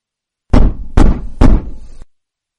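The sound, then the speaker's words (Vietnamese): Three loud, urgent knocks on a door in quick, even succession, each a sharp, heavy thud, with nothing else heard. “Tiếng gõ cửa khá gấp gáp làm cho mọi người đưa mắt nhìn ra.”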